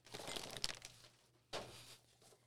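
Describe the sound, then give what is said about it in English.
Crinkling of a Smith's crisp bag as it is pulled onto a table: faint, rustly plastic crackles in a longer first burst, then a shorter second burst after a brief pause. “So we have a Smith's bag being pulled onto the table.”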